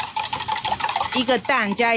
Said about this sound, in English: A lot of customers order danbing. Why don't I make you one?